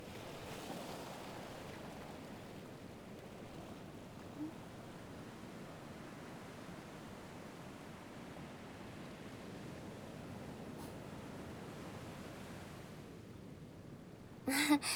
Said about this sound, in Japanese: ただぼんやり海を眺めながら波の音と海猫の鳴き声を聞いて。